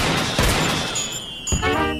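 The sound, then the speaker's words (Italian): Two gunshots from a loaded .38 calibre pistol fired into the air to greet the new year: two sharp bangs about a second apart over a steady, noisy background. “È una calibro 38 carica e pronta a sparare. Cosa che puntualmente succede. Per salutare il nuovo anno che arriva, il piccolo Louis spara due colpi in aria.”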